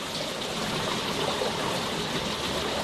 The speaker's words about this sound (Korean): 흐르는 지하수에 미나리를 흔들어 불순물을 씻어내는데요.